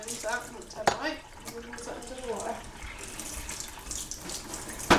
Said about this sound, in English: Rinse all the plates.